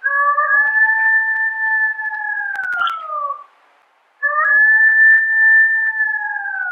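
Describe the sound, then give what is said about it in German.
Golden jackal howling: two long, clear, tonal howls separated by a brief silence; the first holds a steady pitch and then falls at its end, and the second sustains a steady, high wavering tone. “Und so hört sich das Heulen eines Goldschakals an.”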